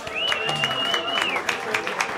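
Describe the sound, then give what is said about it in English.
A crowd applauds a performer after a live music set in a pub. Scattered clapping rolls on throughout, and a single sustained high whistle rings over it early on before fading. “And please, another round of applause for Charles Jenkins.”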